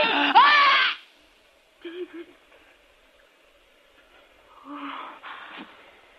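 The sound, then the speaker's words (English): Strained gasps and wheezing from a person being choked by the throat, in three ragged bursts: a loud, long one first, then two shorter, fainter ones. “You got my throat. She's choking me.”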